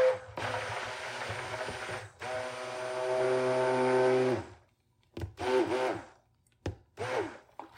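An electric mixer whirs through flan batter and milk in a high-sided bowl. Its loud, steady motor whine runs for about four seconds, then comes in a few short bursts with brief gaps between.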